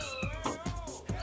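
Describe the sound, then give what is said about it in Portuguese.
A cat meows a few times in quick succession, short bright cries repeated with brief gaps, with no voices over them. “Quem é que tá com um gato aí, porra?”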